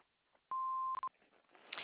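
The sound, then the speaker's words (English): An answering machine beep sounds before a voicemail is left: one steady, loud electronic tone lasting about half a second, with only faint background hiss around it. “Please leave your name and phone number after the beep.”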